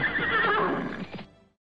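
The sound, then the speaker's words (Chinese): An Ili horse lets out a single loud whinny, a strained, wavering call that holds steady and then trails off into silence. “吃苦耐劳、奔走如风的伊犁马很快就吸引了草原先民的注意。”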